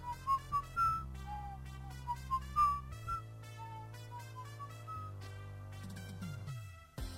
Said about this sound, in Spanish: estoy escuchando aquí silbando las canciones de fondo que tenemos